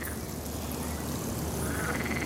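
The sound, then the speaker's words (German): Frogs croak in a city park, a steady, soft, dense chorus with no clear single calls standing out. “Auch eine Oase für Frösche im Stadtpark.”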